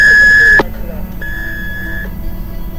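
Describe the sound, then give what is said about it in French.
An electronic beep tone on a call-in radio show, a loud steady pitched tone lasting about half a second, followed by a fainter sustained tone. “Au bip sonore, soyez créatif.”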